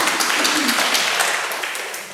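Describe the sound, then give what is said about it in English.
Audience applause welcoming a speaker and team to present a pilot study at an academic presentation: steady, dense clapping that stays loud and eases off slightly at the end. “Please put a hand together, welcome Dr. Amanda and the team.”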